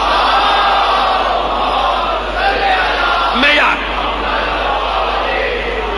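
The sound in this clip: At a majlis, an audience loudly recites salawat in unison, a dense mass of raised voices that stays sustained and loud throughout.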